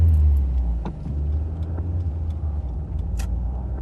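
Car driving at night: a steady, deep engine rumble and road hum fills the whole stretch, with a few faint clicks and rattles on top and no voices.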